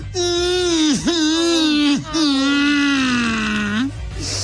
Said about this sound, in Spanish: Ay, yo voy a llorar, menso. Ah, dele, llore, pues. ¡Llore!